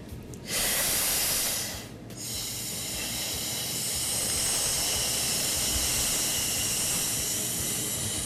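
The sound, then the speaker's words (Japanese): A slow, thin exhale during a breathing exercise, blown out after a big inhale as a steady airy hiss that holds for several seconds after a short break near the start. “こんなやつを毎日やってます。 大きく吸ってこうゆっくり細く吹くって感じですかね。”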